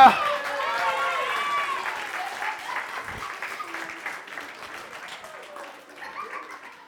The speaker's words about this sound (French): Oui, vous pouvez m'applaudir.